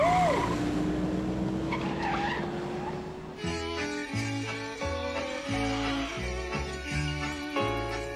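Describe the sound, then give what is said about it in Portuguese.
Tires squeal and a car engine whines as it pulls away in a dubbed film scene, a steady rising tone lasting about three seconds before rhythmic music takes over. “Eu já tô no carro. Valeu. Tô ligando essa máquina.”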